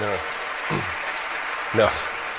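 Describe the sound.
Audience clapping at a live comedy show, a steady spread of hand claps running beneath a man who keeps talking over it in short bursts.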